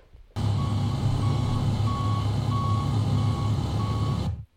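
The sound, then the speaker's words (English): A truck's reversing beeps ring out in a steady, evenly spaced series of high electronic tones over a constant low engine rumble, starting and stopping abruptly. “that sound you hear, people, is us backing it up to last week.”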